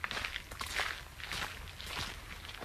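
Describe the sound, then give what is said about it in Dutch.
Footsteps walking through a garden, a few soft, faint steps at an unhurried, even pace, with no talking. “Dus even een stukje er doorheen lopen.”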